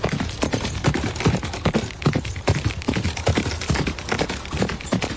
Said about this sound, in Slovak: Áno, je to dupot koní